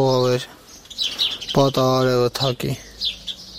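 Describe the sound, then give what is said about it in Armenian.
Chirps and squeaks from colourful domestic pigeons, among them a newly hatched chick, come as a few short calls and bursts, some loud and some faint. “Ամենահաճելի ժամանակն իր բազմագույն աղավնիների հետ է անցկացնում։ Այս մեկը ձվից նոր է դուրս եկել, մյուսը կարծես խնդիր ունի, ջերմություն է պետք։”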